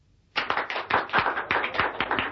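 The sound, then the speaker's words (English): After a moment of near silence, a small group breaks into clapping in an embassy reception room after a dance performance. The claps are sharp and distinct, coming in a brisk, steady rhythm with many strikes. “The applause that rang through the reception room of the Bahrainian embassy was for Mrs. Peel, who had just completed the Dance of the Seven Veils for the Crown Prince, Ali.”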